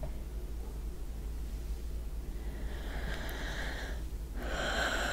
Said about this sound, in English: That was a good breath. That felt nice.